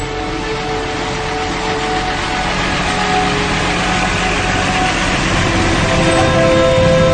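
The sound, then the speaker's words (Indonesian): Steady engine rumble of a car setting off, a broad even noise that grows slightly louder as it goes, with no voices. “Tak lama kemudian, mobil pun berangkat.”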